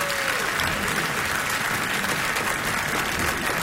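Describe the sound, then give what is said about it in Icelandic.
Audience applause for a clarinet player at a live performance: dense, even clapping that stays steady for the whole stretch with no voices rising above it. “Hauki Gröndal á Klarinett, gefið honum gott klapp.”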